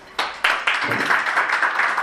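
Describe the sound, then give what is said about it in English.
Hands clapping for a young girl at a church gathering, as an audience applauds. Dense, steady clapping starts abruptly after a brief pause and continues with a few sharper accents at moderate loudness. “Can we all clap our hands for her?”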